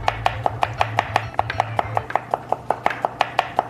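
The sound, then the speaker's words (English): Many quick, evenly spaced knife strokes chop against a cutting board while food is sliced as thinly as possible in a Korean cooking class, with a low hum under the first half. “Try to cut as thin as possible.”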